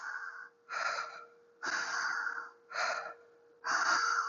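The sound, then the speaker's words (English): Deep guided breathing in through the belly during a breath-training session: five slow, airy breaths in and out, separated by short pauses, fairly quiet, over a faint steady tone. “breathing in a beautiful ball of light into your belly, allowing the breath to open and continue to flow.”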